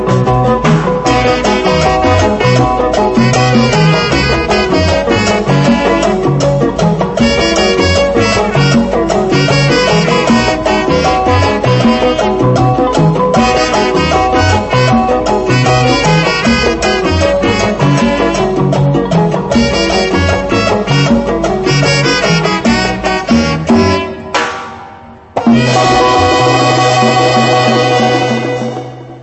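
A loud, dense 1977 dance-band song from Guinea-Conakry plays with driving rhythm and layered instruments, then fades out near the end before a short, different passage begins.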